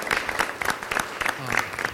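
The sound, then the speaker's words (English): Audience applause at a panel discussion event, a dense spatter of claps that rises and falls in loudness and keeps going for the whole two seconds. “Can we please, big round of applause for him.”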